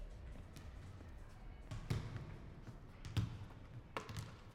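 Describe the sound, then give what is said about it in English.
Faint basketball bounces in a gym where men shoot hoops, a few soft, dull thuds spaced apart over a low, quiet background. “He looks at some guys shooting basketball hoops. After a moment, he decides to join them.”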